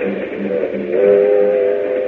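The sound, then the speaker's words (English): A train travelling to Miami gives a steady rumbling drone, and a sustained whistle-like tone grows clearer and stronger partway through. “Meanwhile, on a train to Miami.”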